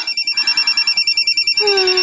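A phone rings with an incoming call: a rapid, bright electronic ringtone of many even pulses, then a steadier sustained tone near the end, with no voices.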